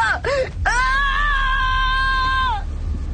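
A man screaming in agony during a violent attack: short wavering cries that rise into a sustained, high-pitched scream held for about two seconds before cutting off abruptly.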